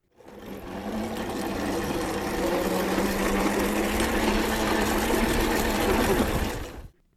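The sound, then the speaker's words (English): An electric scooter's motor whirs steadily for about six seconds, a continuous buzzing hum over a low tone. It starts and stops abruptly. “Did you guess it? It's an electric scooter.”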